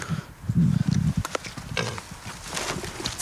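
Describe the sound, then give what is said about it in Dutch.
Pigs eat carrots, banana and bread thrown to them over a fence, giving low grunts and snuffling noises that are loudest near the start and then turn into softer, scattered rustling and chewing sounds. “We lopen nu over een heuveltje heen richting de varkens. En dan ga ik het over het hek heen gooien zodat ze het eten kunnen opeten.”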